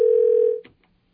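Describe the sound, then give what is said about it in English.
A telephone tone while calling a caller back: one steady, loud low-mid tone holds for about half a second, then cuts off with a soft click and a faint blip. “I think you lost Jack. So you're going to have to dial back to him?”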